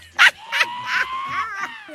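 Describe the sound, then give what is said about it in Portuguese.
A person imitates a dog with the voice, giving a sharp yelp followed by a drawn-out, wavering whine that dips in pitch near the end. “Fica imitando o cachorro, que é isso?”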